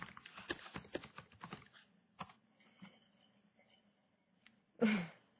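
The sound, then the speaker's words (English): Keyboard typing as an email address is entered: a quick, uneven run of many clicks, then sparse, quieter taps and a final louder cluster of keystrokes near the end, with no talk. “Let me write down my email address.”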